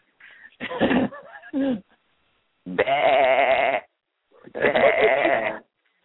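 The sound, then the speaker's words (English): Sheep bleating in three loud, wavering calls. The first is broken into short pieces; the later two are long and steady, with clear silent gaps between them. “some people count sheep, some people chase sheep.”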